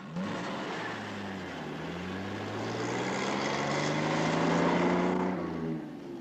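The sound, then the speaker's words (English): A Chrysler car engine starts and revs, its low hum climbing steadily in pitch and growing louder before cutting off abruptly near the end. “Moss smiles as he takes a tin bucket a girl brings to him from the fire. The nomads crowd around the car, peering through the windows as Moss gets back behind the wheel and starts up.”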